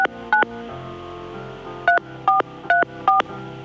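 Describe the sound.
Touch-tone telephone dialing of a six-digit number: six short, steady two-tone beeps. Two come close together, then after a pause four follow at even intervals, over faint background noise.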